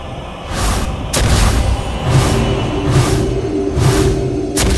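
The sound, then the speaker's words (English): A spell card played in a digital card game, heard as a game effect of several booming, whooshing bursts that repeat at fairly even intervals over a continuous rumbling bed. “Play card. You play Divine Toll.”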